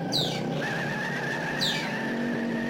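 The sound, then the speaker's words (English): Tire squeal and engine noise from an early fastback Ford Mustang reversing with wheel hop, two short descending squeals over a steady mechanical drone. “Look at the wheel hop in reverse. One wheeler peeler.”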